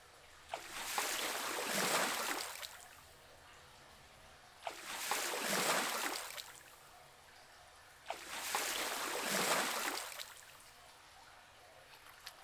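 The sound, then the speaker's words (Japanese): Hot water poured over hair in three separate pours, each a soft, rushing splash lasting a few seconds, with quiet pauses between them. “髪にお湯をかけるので下を向いてください。”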